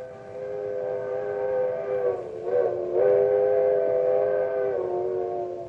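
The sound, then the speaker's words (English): An old-fashioned coal-burning steam locomotive whistle sounds one long, steady, mournful chord with a slight waver midway, fading gently at the end. “It's a locomotive whistle. The old-fashioned kind that was part of a coal-burning steam engine.”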